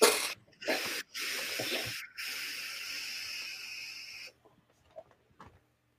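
Vaping on a Vandy Vape Mesh V2 RDA produces a steady, breathy hiss in several bursts separated by short gaps, the last lasting about two seconds. It then stops, leaving a few faint clicks.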